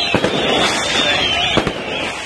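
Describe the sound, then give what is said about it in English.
Fireworks set off during night celebrations across the Gaza Strip, East Jerusalem and the West Bank: continuous loud crackling and hissing, with a few sharp bangs bursting out and a thin high whistle running through. “Thousands of people came out. They set off fireworks”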